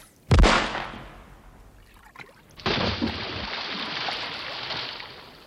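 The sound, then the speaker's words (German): A dead man's body splashing into water: one loud, sharp splash that slowly fades, then a second surge of rushing, churning water that holds steady to the end. “Bewegungslos sieht Kommissar Escherich zu, wie der tote Enno Kluge ins Wasser klatscht und sofort verschwindet.”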